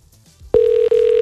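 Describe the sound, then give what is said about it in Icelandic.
A telephone rings on a call that goes unanswered: a loud, steady electronic ring tone starts abruptly after a quiet moment, with one brief dropout midway, and no voices. “Nei, þau eru ekki að svara mér þarna í Þelamörk”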